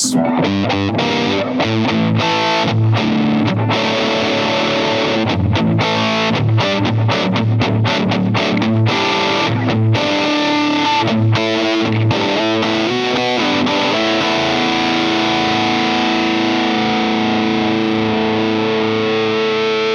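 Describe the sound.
Distorted electric guitar with its tone control turned down plays a run of crunchy, in-tune chords, then a final chord is left to ring, its harmonics sustaining and slowly thinning toward the end.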